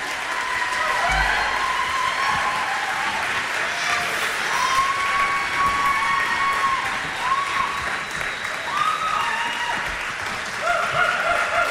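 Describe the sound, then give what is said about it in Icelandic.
Applause from a crowd, a dense, steady patter of many hands clapping that keeps an even loudness for about twelve seconds without a clear break. “Já, já, gefum við gott klapp.”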